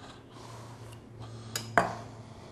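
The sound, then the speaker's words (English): A sushi knife cuts down the center of a roll: a quiet slicing passage that ends in a small tick and then a sharper knock, with no talk. “Maintaining a wet, clean knife is really important, whether it's a sushi knife or not. And we're going to cut down the center here.”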